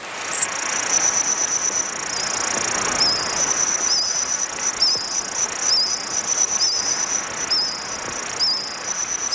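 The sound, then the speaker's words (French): Reconstructed insect chorus of a Jurassic forest: a steady, shrill high-pitched buzzing with many short chirps repeating at a regular rhythm, holding continuously throughout. “C'est le son de certains insectes du Jurassique.”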